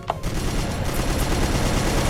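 Rapid machine-gun fire from a video game weapon shooting up into the sky: a dense, unbroken rattle of shots at steady, loud level for the whole stretch, with no voices.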